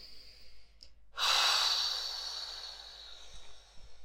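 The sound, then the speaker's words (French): A single deep exhale during a guided relaxation exercise: a breathy rush that begins abruptly after a quiet moment, then slowly fades over a couple of seconds, with no talk. “Nous expirons et nous expirons, profond nettoyage jusqu'à nos cellules.”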